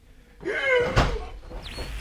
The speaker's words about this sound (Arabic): أنا لابد أفتح الباب ده وأعرف وراه إيه.